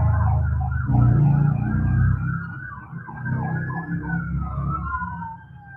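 A police car siren passes with a loud, continuous wail that sweeps up and down in pitch, a heavy low rumble at the start, and a fading tail.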